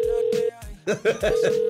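A telephone tone sounds while a call is being placed: a steady, even hum that breaks off briefly for a busier stretch of sound, then resumes and holds to the end.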